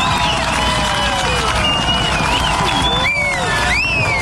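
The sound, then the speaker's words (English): Crowd cheering from hundreds gathered at a FIFA World Cup watch party in a lakeside park for a Canada match, a dense, loud, steady roar of voices with whistle-like tones gliding over it throughout. “That's the sound as hundreds gathered yesterday afternoon at Lakeside Park in Nelson for the FIFA watch party.”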